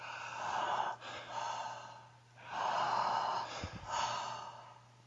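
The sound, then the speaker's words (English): Quick breaths drawn in and pushed out through the mouth, heard as faint breathy rushes of air that rise and fall in a few swells over a low steady hum. “So we're going to do two of the reset breaths. So that's the quick inhalation through the mouth and out the mouth.”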